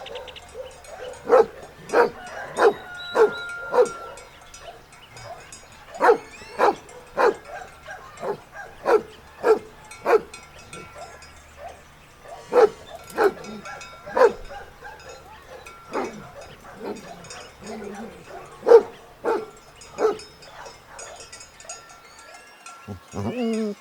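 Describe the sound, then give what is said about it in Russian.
A dog barks many times, sharp and loud, in uneven bursts of several barks with short pauses between them. “Собака. Собака.”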